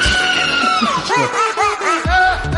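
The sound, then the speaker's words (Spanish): A goat screams in a series of harsh, harmonic cries. One long call falls in pitch, then a few shorter arched cries follow in quick succession, all loud. “Esto es un sonido de una cabra. Esto así... Así gritan las cabras.”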